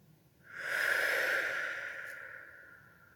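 A person slowly inhales a single long breath through the nose. The airy, breathy sound swells, holds for a couple of seconds and then gradually tapers off. It is fairly soft and there is no talking.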